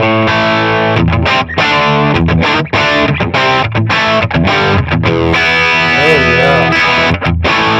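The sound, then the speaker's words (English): A heavily distorted electric guitar, a 1957 instrument in TV white with a smoky neck pickup, plays loud chords and riffs with brief choppy gaps, then a few bent notes near the end. “Oh, that's great. 70-year-old guitar, 1957.”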